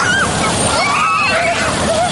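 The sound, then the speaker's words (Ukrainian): Children splash and play in city fountains on a hot summer day. A steady, loud rush of spraying water carries high children's shouts and squeals over it. “Діти освіжаються у міських фонтанах.”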